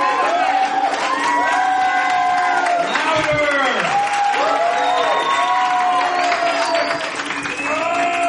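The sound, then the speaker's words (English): An audience at a poetry performance applauds and cheers for a performer, with steady clapping under loud whoops and excited, rising shouts throughout. “Alright, make some noise for Micah, ladies and gentlemen!”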